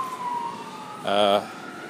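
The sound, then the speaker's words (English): A fire truck siren sounds in a short, loud burst of about a third of a second, a wavering tone over steady low background noise. “At the moment, that was a fire truck.”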